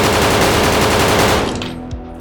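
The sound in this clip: Rapid automatic gunfire in a video game, aimed at a cyberpsycho. A dense, continuous, loud burst of shots lasts about a second and a half, then thins out and tails off. No voices.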